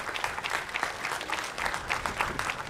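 Applause from a church audience, given in thanks to the choir of the Utena Divine Providence parish, forms a thick, continuous patter of many hands that stays steady from start to finish.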